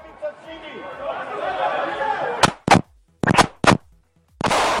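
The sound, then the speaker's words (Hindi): Gunfire during an attack inside a synagogue in Jerusalem: several sharp, loud shots in short irregular bursts, some in quick succession, after a stretch of agitated crowd chatter and voices. “ये गोलियों की आवाज उस लम्हे की है जब दो फलस्तीनियों ने सिनेगॉग में दाखिल होकर चार अफराद को कत्ल कर दिया था।”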